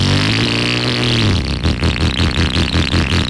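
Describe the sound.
A motorcycle engine first holds a steady, low droning hum, then breaks into a loud, rough, rapidly pulsing clatter as it revs, with no talk.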